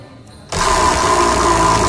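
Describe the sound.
A prize wheel is cranked and set spinning at a giveaway, with a loud, dense whirring rattle that kicks in suddenly and then holds steady without letup.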